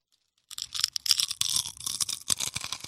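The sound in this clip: Crunching of potato chips being eaten: after a brief silence, many irregular, crisp crackling bursts follow one another at moderate loudness, with no talk.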